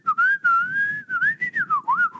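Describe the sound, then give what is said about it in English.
A person whistles a clear, wavering melody while out walking. The pitch slides up and down through a long held phrase and then breaks into several shorter notes, with no talk. “for a tip would be when you're walking, make some noise. I think that's key. You got to make like I tend to whistle.”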